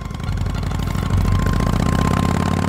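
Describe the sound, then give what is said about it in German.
A car drives along a city road with a steady, droning engine hum and a constant tone running through it. The drone grows slightly louder partway through and continues evenly without pauses. “Hesse verließ den Stadtring und bog auf die Heerstraße ein. Er fuhr in Richtung Grunewald, bis sie die Teufelssee-Chaussee erreicht hatten.”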